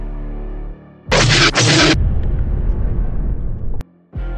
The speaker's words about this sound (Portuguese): Tu explode outro TIE Fighter e os destroços passam pela lateral da tua nave